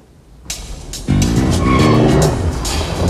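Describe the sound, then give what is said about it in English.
A car speeds away out of a car park with a sudden loud engine roar and squealing tyres, after a quieter opening, then stays loud and sustained. “Unseen by him, figures in the car park jump into a car, which then speeds towards the exit.”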